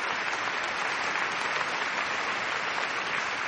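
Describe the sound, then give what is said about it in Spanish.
Guests applauding in Westminster: a dense, steady patter of many hands clapping at an even loudness throughout, with no single voice standing out above it. “En Westminster los invitados aplauden también.”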